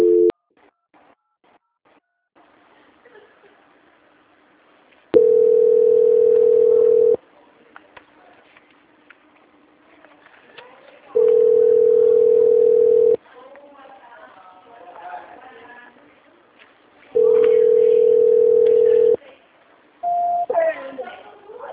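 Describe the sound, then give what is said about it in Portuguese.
Telephone call-transfer tones: three long, steady beeps of equal length come at even intervals, then a shorter, higher tone near the end. Faint background sound fills the gaps between them. “Só mais um momento que eu estou transferindo a ligação.”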